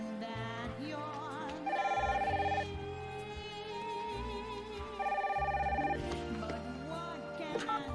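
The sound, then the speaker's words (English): A telephone rings in two bursts of fast, trilling bell tone a few seconds apart, each lasting about a second. A steady tonal background plays underneath. “She places the photo on the bed, rises and answers the phone.”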